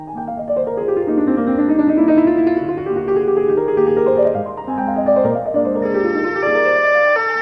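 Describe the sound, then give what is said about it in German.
An emergency vehicle siren wails loudly and continuously, its pitch sweeping up and down in repeated glides with no voices over it. “Ein Einsatzwagen der päpstlichen Inquisition.”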